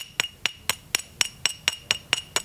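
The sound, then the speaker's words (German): Two excavated stoneware pottery shards knocked together, giving ten bright, ringing clinks in a quick, even rhythm. “Auch der Klang gibt Auskunft darüber, aus welchem Material eine Scherbe besteht. Ich schlage die beiden mal vorsichtig aufeinander.”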